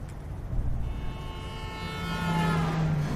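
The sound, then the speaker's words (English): A car approaches from the far end of a road, its steady engine hum building gradually louder toward the end, with a thin tonal whine emerging over a low rumble. “A car approaches from the other end of the road.”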